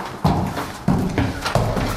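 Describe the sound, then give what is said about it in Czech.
Hollow, booming footsteps on old wooden stairs, about four slow, evenly spaced heavy treads, each a dull low thud. “Tak pojďte tady po těch schodech, teď opatrně, bude to tak jako duně, jsou to dřevěné staré schody.”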